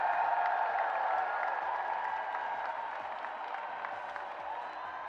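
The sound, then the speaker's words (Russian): An audience at a song contest event applauds the jury with steady, dense clapping and crowd noise, gradually easing in loudness across a few seconds. “Аплодисменты нашему жюри. Давайте вместе поддержим эту непростую, но такую важную работу.”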